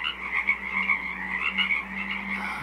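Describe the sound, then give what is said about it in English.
Frogs croak in a small wetland on Saturna Island, British Columbia: a steady, overlapping chorus of throaty trills that pulses gently throughout, over a faint low hum, with no voices. “A 24-hour broadcast of the sounds of a small wetland on Saturna Island, British Columbia.”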